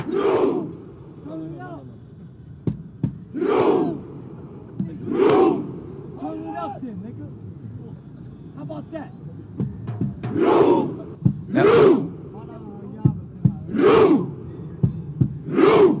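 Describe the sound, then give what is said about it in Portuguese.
Norwegian football fans in Times Square chanting a rowing cheer: loud, rhythmic group shouts rising out of a crowd murmur, coming in evenly spaced bursts with short gaps between them. “Os torcedores da Noruega estão em plena Times Square, vários, milhares de torcedores simulando uma remada. É uma característica da torcida norueguesa, eles fazem isso nos estádios”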